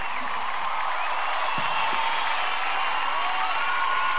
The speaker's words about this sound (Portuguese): Pode aplaudir, gente.